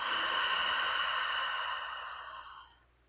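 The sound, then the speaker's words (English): A long, deep breath drawn slowly, heard as a steady airy hiss held for a couple of seconds before fading away, with no talk. “Let's take a deep breath together. A nice long inhale. And a nice long breath out.”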